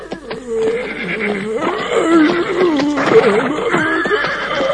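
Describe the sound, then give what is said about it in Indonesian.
A donkey approaching a cave brays in a run of strained, wavering tonal calls that rise and fall. The calls are fairly loud and continuous, with no other sounds. “Oh, ternyata seekor keledai, adik-adik. Dia berjalan dengan tergopoh-gopoh menghampiri gua, di mana singa tua itu sedang terbaring.”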